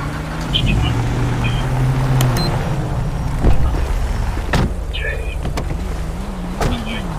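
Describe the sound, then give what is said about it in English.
A police car being driven in a video game gives a low, steady engine hum, with a few clicks and thumps and brief voices over it. “Time to move my vehicle up.”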